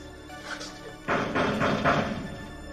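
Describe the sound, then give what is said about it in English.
Someone bangs on a door from the inside, wanting to be let out: a few heavy, muffled thuds in a loose rhythm that begin suddenly after a quiet stretch. “She bangs on the door, and the guard lets her out.”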